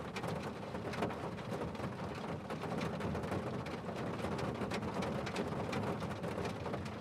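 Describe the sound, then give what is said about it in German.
Rain falling on a roof makes a dense, continuous patter that holds an even, steady loudness throughout. “Klang des Regens auf dem Dach wirkt beruhigend”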